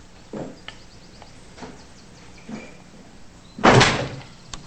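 A door shoved shut with a foot lands as one loud, heavy thud near the end, preceded by a few faint knocks and small movements.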